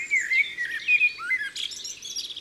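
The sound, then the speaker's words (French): A common blackbird sings a run of fluting, warbling whistled phrases that waver in pitch, then breaks into higher twittering notes near the end. The song is clear and unaccompanied, with no talk. “Tu entends le merle ? Bah oui, je l'ai reconnu. Il y en a un aussi dans mon jardin. J'aime bien comment il chante.”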